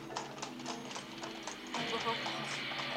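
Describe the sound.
Hooves of a horse-drawn carriage clop in a quick, steady rhythm, the regular beats fairly faint, with a louder broad rushing noise joining partway through and continuing under them.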